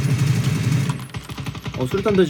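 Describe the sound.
Automatic gunfire in a shooting video game rattles in a rapid, steady burst, then fades as a man starts talking.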